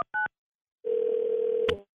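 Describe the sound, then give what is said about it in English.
A telephone is dialed: two short keypad beeps, then a long steady tone, which ends with a sharp click. “We're going to dial Leo and figure out what's going on for you, okay?”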